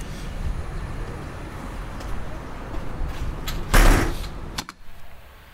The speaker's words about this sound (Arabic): ممكن اقفل الباب بقى ساعتها ولا مش فاهم؟